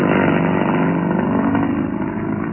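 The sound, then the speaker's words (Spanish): Engine of a battered sports car running with a loud, continuous, rough drone that holds steady for a couple of seconds, with no voices. “Luego, a bordo del vehículo, recorrían las callejuelas del pueblo de Rinley”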